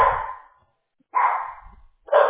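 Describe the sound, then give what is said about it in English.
A dog barks excitedly at home during a remote work call, giving three loud, sharp barks separated by short silences. “They see other dogs, they get excited.”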